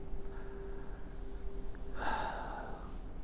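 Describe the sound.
A deep breath is drawn in, one breathy inhale in the final second after a quiet stretch with a faint steady hum.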